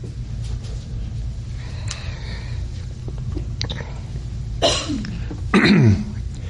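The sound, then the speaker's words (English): Coughing after a drink of water during a Bible reading. A couple of harsh, throat-clearing bursts come near the end, after low murmuring and a steady rumble. “excuse me, I took a drink of water to make me cough”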